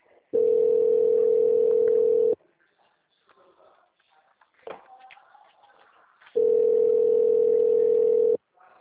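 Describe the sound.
Telephone line tone during a call transfer: two long, loud, steady buzzing tone bursts of about two seconds each, separated by a quiet gap with faint scattered background noise.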